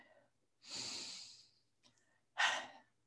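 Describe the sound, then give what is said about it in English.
A deep breath taken during a guided practice on grief: a long, soft breathy inhale, then after a brief pause a shorter, stronger exhale, faint overall and without talk. “let's take one more breath”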